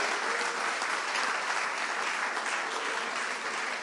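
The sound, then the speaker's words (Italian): A church audience applauds the Lord during a worship service. The clapping is dense and steady and lasts the whole few seconds. “grazie Signore, facciamo un applauso al Signore,”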